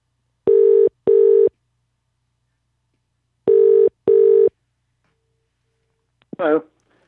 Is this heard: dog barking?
no